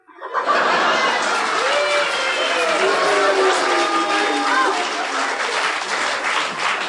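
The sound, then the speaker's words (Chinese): Audience applause breaks out at a comic crosstalk performance, a dense, steady clatter of clapping that holds strongly for several seconds, with voices and laughter rising over it. “就这个您还给鼓掌呢”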